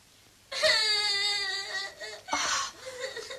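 An infant crying in wailing bursts: one long sustained cry, then a shorter second cry and softer whimpering sobs, sounding alone.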